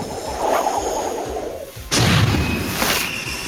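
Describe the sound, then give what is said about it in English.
Magic missile spell effect from a tabletop role-playing game: a rushing, noisy whoosh that swells, then a sudden loud booming burst midway that rumbles on to the end, without voices. “so Raimi is going to cast Magic Missile”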